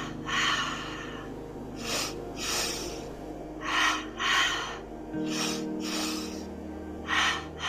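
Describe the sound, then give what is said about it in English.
Breathing exercise with two quick inhales through the nose followed by an exhale: short, sharp nasal sniffs come in pairs, separated by breaths out, repeating several times at an even pace. “Inhaling 2 times through the nose. Exhale.”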